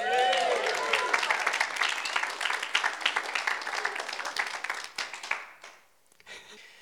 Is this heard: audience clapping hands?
yes

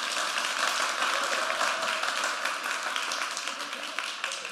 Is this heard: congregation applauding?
yes

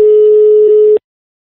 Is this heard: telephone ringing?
yes

